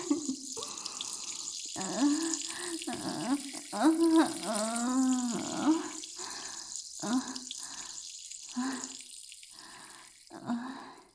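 Urine splashes in a steady, hissing liquid stream during a bath, running continuously beneath intermittent vocal sounds.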